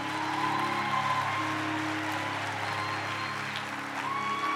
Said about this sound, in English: please, just to put our hands together and stand on our feet as we give a warm welcome to Apostle Collins Dhlomo to come and minister the word.